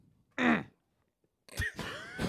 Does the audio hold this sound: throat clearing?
yes